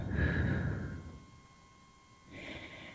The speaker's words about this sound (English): we're going to take a deep breath in through the nose and out through the mouth